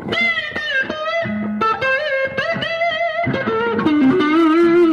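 Blues electric guitar phrases in an Albert King style, run through effects and light distortion: a steady, loud run of wide string bends and singing sustained notes that ends on a held, wavering note, with no voices.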